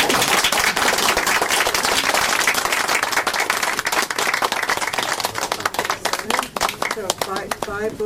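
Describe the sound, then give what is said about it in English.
An audience applauds visiting authors after a book event Q&A. Dense, crackling clapping runs loud throughout, thins into scattered claps toward the end, and a voice briefly cuts in near the close. “Okay, so let's have one more hand for our visiting audience.”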